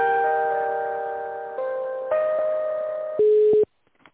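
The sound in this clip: Electronic telephone line tones play while a call is transferred: sustained pure tones that step to new pitches several times, then cut off abruptly into silence with a few faint clicks.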